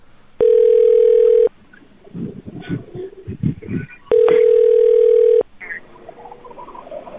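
A steady telephone dial tone hums for about a second, then a quick run of short dialing sounds follows, and the flat tone returns for another second before trailing off into faint noise.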